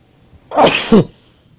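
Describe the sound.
A single sneeze, loud and alone, breaking out in two quick sharp bursts with quiet before and after.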